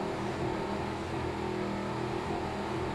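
A racing powerboat's engine roars in a steady, dense drone throughout a bumpy run at the start of a race, loud and unbroken with no voices.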